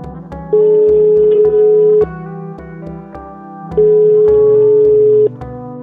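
An outgoing phone call to a lawyer rings through with two long, steady electronic beeps separated by a pause, loud over a low, rhythmic background tone.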